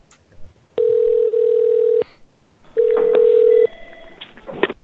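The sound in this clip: Telephone ringing: two long, steady electronic rings, each a flat sustained tone, the second slightly shorter, separated by a quiet gap, with faint clatter after the second.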